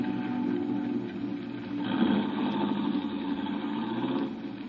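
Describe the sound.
A taxi engine idles on the way to the Embarcadero, giving a steady low rumble that stays even throughout, with no voices.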